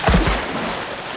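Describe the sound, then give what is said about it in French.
Otters splash as they jump and are tossed into water beside a holt under the roots of a large willow. A couple of quick, heavy splashes come first, then a steady wash of churning water. “Elle le jette dans l'eau et motive les autres. Allez, pas de chichi. À 3, on saute. 1, 2, 3.”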